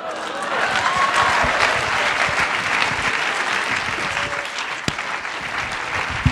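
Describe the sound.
An audience applauds to welcome a speaker onto the stage, with dense, continuous clapping that holds steady in loudness throughout.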